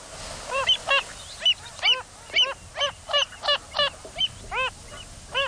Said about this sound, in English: this is the call of that spinning bird of Salt Lakes, the Wilson's phalarope.